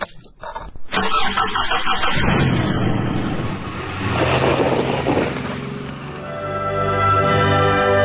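A car engine starts with a few clicks, then catches into a loud, rough rumble that swells and steadies, settling into an even humming drone by the end, in an arrest scene where a detainee is put into the car.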